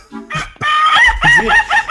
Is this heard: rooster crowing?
yes